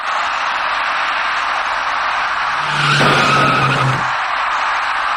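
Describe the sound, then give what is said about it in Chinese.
Tires skid and screech as a taxi rear-ends a slowing car in traffic, a sustained squeal rising out of steady hiss for about a second and a half, then fading back into the hiss. “驾车从后面开上来的这位出租司机没有注意到前面的车辆已经减慢车速，转眼过后出租车的前部撞上了前车的尾部”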